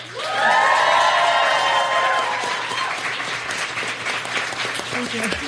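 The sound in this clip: An audience welcomes a guest with loud applause and cheering. The clapping swells quickly, whoops and shouts rise over it, and then it settles into sustained clapping that tapers slightly.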